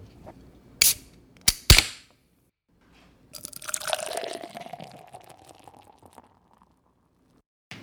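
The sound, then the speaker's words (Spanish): A beer can is opened and the beer poured into glasses: a few sharp cracks come first, then a steady, bubbling pour with a ringing, rising liquid tone lasting a few seconds before fading out. “El momento que abrimos el bote, o si hueles el bote después de que la abrimos y la echamos en los vasos”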